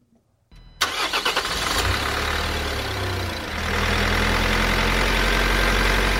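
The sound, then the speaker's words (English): Sound effect of a van engine starting: a moment of silence, then a stuttering starter crank, the engine catching into a rough running rumble that swells into a louder, steady drone. “that sound you hear was not the van starting and driving away, although it sounded like it because we did a really nice job on the sound effects. But that van engine means it's time for van maintenance updates.”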